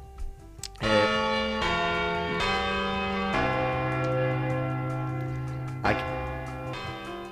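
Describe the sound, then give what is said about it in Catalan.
A church bell tolls several resonant strikes at uneven intervals, each ringing on with a long humming decay that overlaps the next. Fairly quiet, with no talk. “Bé, passem ja a la segona campanada.”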